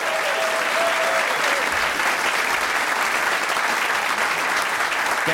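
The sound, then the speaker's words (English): Audience applause welcomes a performer onto a stage: a loud, dense and steady wash of many hands clapping, sustained evenly through the whole stretch with no voices over it. “Please put your hands together and welcome to the stage my friend and yours, Gabby Best!”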